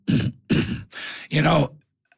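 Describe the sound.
A person coughing during a gardening Q&A about soaking seeds, a few harsh, rough bursts in quick succession, the last one longer and more voiced.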